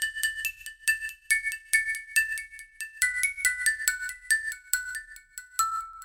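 8-bit chiptune remake of music from the Kung Fu video game, transposed up nine semitones: a bright, buzzy square-wave melody of short, evenly paced notes over soft low beat pulses.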